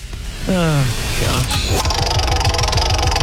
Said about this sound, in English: I really want to spin this wheel. Should we do it? Yes. Come on.